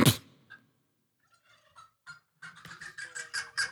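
A person's voiced imitation of a turkey gobble: a few short, scattered clucks followed by a longer, loud rattling gobble with a rapid tremolo, with no talk over it.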